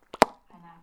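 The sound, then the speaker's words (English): A mouth-made imitation of an appendix rupturing: two quick wet pops, the second louder, followed by a short, low voiced tone. “Just that's the sound of it rupturing, by the way. Everyone knows when anything ruptures, whether it's reality or an appendix, it goes”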